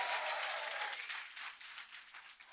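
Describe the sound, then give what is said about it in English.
A church audience at a 10 a.m. service applauds, with faint, continuous clapping that thins out slightly over a few seconds. “10 a.m., can you make some noise for Jesus?”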